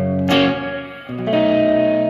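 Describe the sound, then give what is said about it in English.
An instrument played through the lo-fi reverb setting of an effects pedal. Two sustained chords sound in turn, each with a gritty, washed-out tail that lingers and blends into the next. “Lo-fi reverb. The lo-fi effects on this thing are awesome.”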